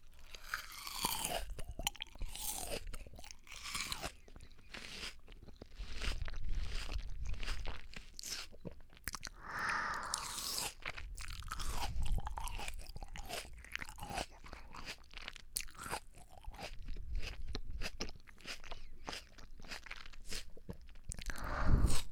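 Chewing and crunching of a small sweet melon: many wet, crisp bites and mouth noises repeat steadily and fairly faint throughout, with no talking.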